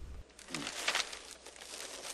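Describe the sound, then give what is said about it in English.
A newspaper is lifted and rustled in a brief, crinkly papery swish that swells near the middle and then settles into a soft rustle. “lifts up his paper.”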